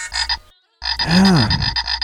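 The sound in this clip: A toy frog croaks loudly: a short buzzy croak, a brief silence, then a longer, rasping croak with a warbling low tone.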